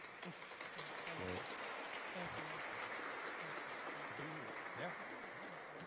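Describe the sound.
Faint, steady applause from an audience welcoming guests to a panel event on justice, a continuous soft wash of clapping with voices faintly audible underneath.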